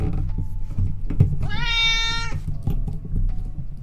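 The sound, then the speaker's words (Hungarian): A domestic cat lets out a single drawn-out, fairly loud meow in the middle, set against a low background rumble, with quieter moments before and after. “Neki aztán hiába nyávogsz.”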